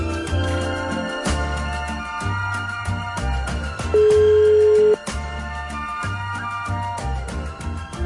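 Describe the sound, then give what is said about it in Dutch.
A single steady telephone ringback tone, heard once after a number is dialed, lasting about a second over continuous background music with no talk. “Even kijken of het goede nummer intoetsen. Lee. Zo, even kijken wie er op gaat nemen.”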